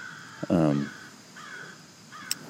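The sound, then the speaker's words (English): A crow caws outdoors near a yard. One loud, harsh, hoarse caw stands out against quiet background noise. “there's a crow. Maybe you can hear the crow in the podcast. I'm not sure if the microphone will pick that up, but I bet it heard that.”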